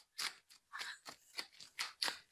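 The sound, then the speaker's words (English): Crisp, dry crunching and rustling as playing cards are handled and shuffled. Short papery bursts come quickly in an uneven rhythm, faint and close, with no talking. “Time for the card ASMR.”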